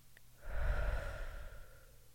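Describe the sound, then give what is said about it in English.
A single uneven inhale taken while partly holding the breath, a rough, slightly wavering breath lasting about a second and a half, heard alone. “Could even hear in my inhale that I'm holding my breath. It wasn't a very smooth inhale.”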